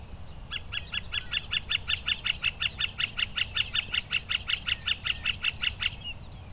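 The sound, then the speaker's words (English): A northern flicker gives a loud, sustained series of quick, evenly spaced, high-pitched piping notes, steady in rhythm for several seconds, over a low background rumble. “Okay, I've got a northern flicker right here, being fairly loud when it calls.”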